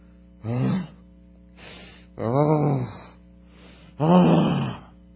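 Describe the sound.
A human voice groaning three times, low voiced moans with a wavering pitch, separated by two fainter breathy exhalations, over a steady low hum.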